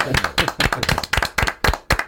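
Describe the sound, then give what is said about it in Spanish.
Clapping rings out as an ovation for a contestant on a quiz show: a quick, rhythmic run of many sharp claps, fairly loud, with no voices over it. “Yo pido otra ovación Otra.”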